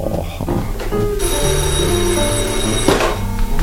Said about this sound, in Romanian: Telefonul. Da. Nu vrei să răspund?